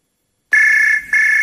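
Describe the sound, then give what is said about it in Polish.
Electronic telephone ringtone bursting in from silence, a steady, piercing high-pitched tone broken by one brief gap before it resumes at full loudness. “Jest takie miejsce, w którym codziennie dzwoni telefon.”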